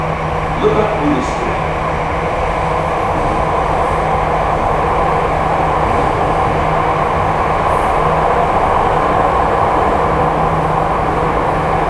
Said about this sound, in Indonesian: Dear passengers, welcome. This train is bound for Lipat Bulustria.